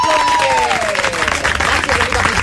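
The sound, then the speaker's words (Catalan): Studio audience applause, dense and lively, with a voice briefly audible over the clapping early on. “Anem a un aplaudiment.”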